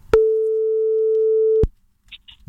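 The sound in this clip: A single long, steady telephone tone, heard while calling a friend, holds an even pitch for about one and a half seconds with nothing else over it, then cuts off and leaves a few faint clicks.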